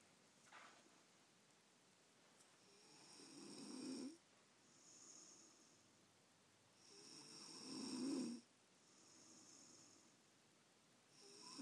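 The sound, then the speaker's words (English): A woman snoring at night in a back room at home: two long, rasping inhaled snores, the second louder, with quieter breaths between, all faint over a steady background hiss. “I'm just gonna take you into the back room here and let you hear my wife snoring.”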